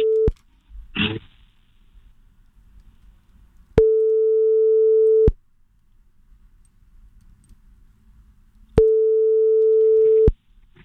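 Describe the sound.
Phone ringback tone while calling someone again: a steady mid-pitched tone sounds twice, each lasting about a second and a half, separated by long quiet gaps, after a brief tone that cuts off at the very start.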